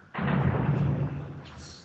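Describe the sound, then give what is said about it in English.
Heavy machine gun fire nearby in Baba Omar bursts in abruptly as a loud, sustained rattling roar, holding steady for about a second before gradually fading. “It sounds very close. Yeah, it's because it's heavy machine gun.”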